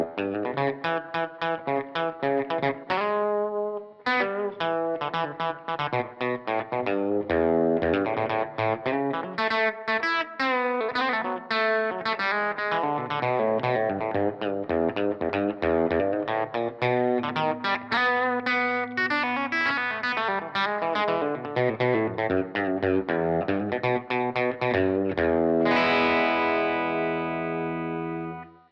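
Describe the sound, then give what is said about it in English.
Electric guitar, a Telecaster, runs through a Strymon Iridium amp modeler on a tweed deluxe setting with the gain pushed up. It plays steady chords and single notes with mild overdrive, closing on a ringing chord that fades out. “So I push the gain a little bit and trying to get a little bit more of a tweed deluxe vibe happening out of it. Let's try to hear what that sounds like.”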